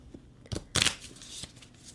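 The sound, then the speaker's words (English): Playing cards being shuffled by hand, a few soft riffling bursts with one louder, sharper flurry near the middle, then quieter rustling. “What you hear right now is inadequate shuffling. Far superior shuffling.”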